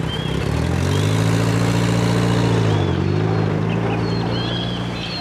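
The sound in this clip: A car engine runs as the car drives off, a loud, steady low droning hum that wavers slightly in pitch, with no talk over it.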